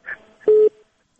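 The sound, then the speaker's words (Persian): A telephone busy tone after a call is cut off sounds as one loud, steady mid-pitched beep, preceded by a fainter brief tone and short noise. “تلفن قطع شد”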